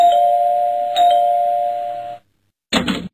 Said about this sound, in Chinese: 不一会儿啊，家里的门铃就响